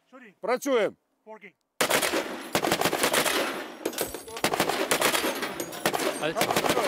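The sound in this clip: A heavy machine gun fires after a brief voice: loud bursts of rapid automatic fire, with short pauses between them.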